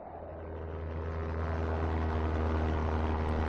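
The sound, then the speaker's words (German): Steady drone of an aircraft in flight on its way to a remote camp. A broad engine roar with low humming tones swells slightly early on, then holds evenly, with no voices. “Wir fliegen.”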